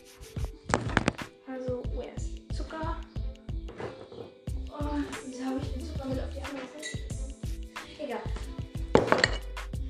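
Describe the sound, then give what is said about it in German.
Clinks and scrapes of a spoon stirring two tablespoons of sugar into a bowl, many irregular knocks and clatters at a steady pace, with a voice briefly in between. “ich mische jetzt erstmal äh, zwei Esslöffel Zucker rein.”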